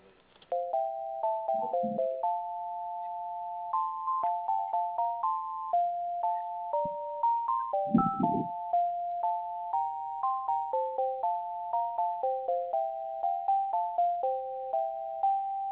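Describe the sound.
An electronic tone melody plays over a phone line as a call is dialed and connected, with steady stepping mid-pitched notes repeating for many seconds and a few faint, brief bursts of noise.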